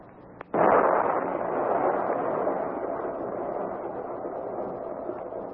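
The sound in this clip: Dynamite blast with a sudden loud onset after a short quiet lead-in and a faint click. A broad rumbling roar follows and slowly decays over several seconds.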